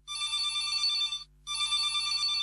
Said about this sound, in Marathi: Sir एक call येतोय, आपण घेऊया.